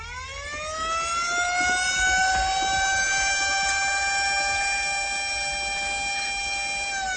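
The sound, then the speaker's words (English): Siren wailing, its pitch climbing during the first second and then holding a loud, sustained, harmonic-rich tone that barely wavers to the end. “Stop them with your siren, man! Stop them with your siren!”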